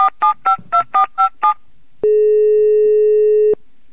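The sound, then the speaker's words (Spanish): Telephone redial and busy signal: seven quick, evenly spaced dialing tones, then a short pause and one long, steady, loud busy tone. “Sí, cómo no, ahí estamos discando de nuevo. Esta vez usaremos el redial.”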